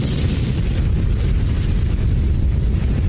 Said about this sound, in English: At 11:29 a.m., the Kursk explodes and plunges over 300 feet down.